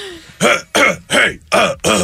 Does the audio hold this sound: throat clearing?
yes